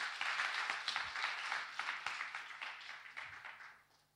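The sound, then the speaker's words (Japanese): Applause from many hands at a Christian worship gathering, a dense steady clatter of claps that carries on for several seconds and then thins out and fades toward the end. “本当に主にですね感謝の拍手をあげましょうか”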